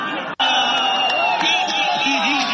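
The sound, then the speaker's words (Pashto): Cricket fans cheer and shout at the final matches in Kunar's central stadium, a continuous loud roar of voices with high whoops and wavering calls, broken by one sudden brief dropout near the start. “دا د کونړ په مرکزی لوبغالی کې د کرکټ پای ته رسیدلو سیالیو ته د راغلو مینوالو د خوښیو او د خپلو لوبډلو د هڅولو لپاره د چغو او چکچکو غږونه دي.”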